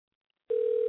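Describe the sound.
A telephone dial tone as a call is placed: half a second of silence, then a steady, loud, single-pitched hum that starts abruptly and holds unchanged to the end.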